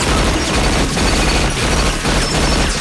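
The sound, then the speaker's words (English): A machine gun fires in an audio drama, a loud, dense rattle of rapid shots with crashing noise that fills the whole stretch. “Hickey gets up and grabs a machine gun.”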